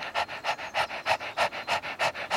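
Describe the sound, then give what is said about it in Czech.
People panting rapidly like a dog as a breathing exercise, with many quick, even, breathy huffs in a steady rhythm, soft and without speech. Human voices imitate a dog's pant. “Dejte si ruku na bříško, vyplázněte jazyk a dýchejte jako pejsek.”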